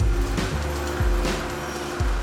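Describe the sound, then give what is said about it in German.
Chongqing Metro Line 2 train arriving at a station on the eighth floor of a building: a steady low rumble with a few rhythmic heavy thumps, like wheels passing over rail joints. “Die Bahn ist Chongqings Metrolinie Nummer 2. Sie macht Halt mitten im achten Stock.”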